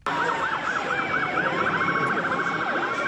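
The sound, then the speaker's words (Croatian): Police car sirens wail through New York city streets, a loud, continuous electronic siren that sweeps up and down in steady warbles, then shifts to quicker yelping cycles, with no voices. “Policijske sirene, blokirane ulice.”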